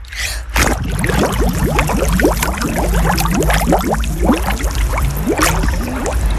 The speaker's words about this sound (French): Tu essaies de faire un bruit de bulle là sous l'eau pour voir un peu ce que ça donne ?